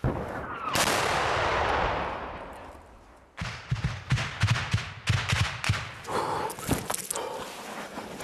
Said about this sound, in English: That's two Russian shells that have just come in. I think it's tank fire.